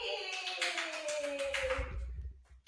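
A live listener claps her hands, a quick run of sharp claps over a steady tone that fades out near the end.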